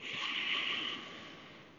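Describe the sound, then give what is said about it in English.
A strong, hissing breath pushed out through the nose during a pranic breathing exercise, loud for about a second and then tapering off into a softer, fading exhale. “So I begin to engage this pranic breathing.”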